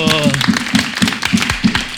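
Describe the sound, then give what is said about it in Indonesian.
Rhythmic clapping by an audience at a Banyumasan local culture event, with steady, evenly paced claps sounding roughly four times a second. A voice is heard at the start and voices continue under the clapping. “Kita tepuk tangan dulu.”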